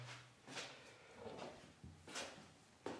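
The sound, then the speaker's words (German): A toilet room door being closed: faint handling knocks and rubs, then a sharper latch-like click near the end, quiet and with no voices. “So, wir gehen rein, schließen die Door.”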